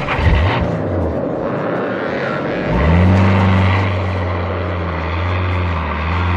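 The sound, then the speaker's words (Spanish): A vehicle engine resumes moving into a large tunnel, a loud, low droning hum that dips, then swells midway and holds a steady rumbling tone. “El vehículo reanuda la marcha, internándose por el gran túnel.”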